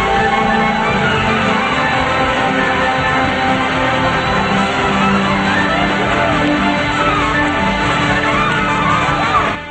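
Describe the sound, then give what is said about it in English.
A dense crowd cheers and shouts without pause, packed into a street under falling confetti with more people crowded onto balconies above; the roar stays loud and steady throughout. “Crowd fills the entire street and confetti rains down on them. People are crowded onto balconies above.”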